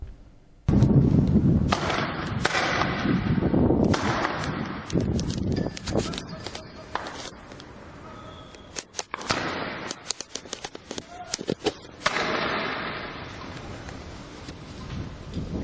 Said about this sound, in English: The footage shows Bahraini police officers firing randomly at residential buildings.